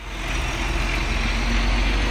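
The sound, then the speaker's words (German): Steady low engine rumble of a nearly 17-metre truck, a tractor unit hauling a white container, creeping slowly through a Kenyan village; a broad, constant drone with no distinct events or voices. “Ein knapp 17 Meter langer LKW kurft vorsichtig durch ein kenianisches Dorf”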